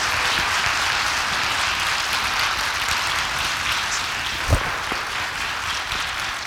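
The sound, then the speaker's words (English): A church audience at a Sunday morning service applauds to welcome two guest pastors, steady continuous clapping throughout with one brief low thump partway through. “So, would you put your hands together this morning and give a great big faith assembly welcome to my friends, our pastors, Rick and Susan Ross?”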